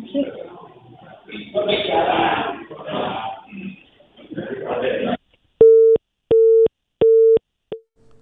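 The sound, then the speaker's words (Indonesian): A telephone busy signal on a failed phone connection follows a stretch of talk: three loud, steady beeps at even intervals, then the start of a fourth that is cut off. “kami mohon maaf pendengar, sambungan telepon bersama dengan reporter Zahrotin Aljana mengalami kendala.”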